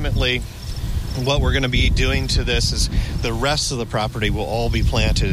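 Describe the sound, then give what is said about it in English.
Crickets chirping on a planted roof growing native grasses and plants, a thin, steady high chirping that runs faintly beneath continuous talk throughout. “But out on the roof right now, you can hear the crickets chirping,”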